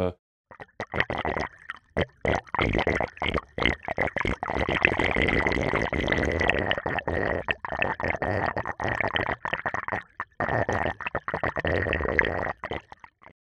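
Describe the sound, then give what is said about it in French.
Water gurgles as it drains down a sewer, a busy run of irregular glugs and splashy bursts. It stays fairly loud, broken by short gaps, with no talk. “J'ai un super glouglou dans un égout d'eau qui s'évacue.”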